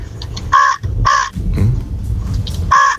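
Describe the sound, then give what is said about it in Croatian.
A man imitates a crow with loud, harsh, nasal caws in short bursts, separated by rougher, breathy vocal noise. “rekao da može super oponašati Vranu, pa evo još jednom.”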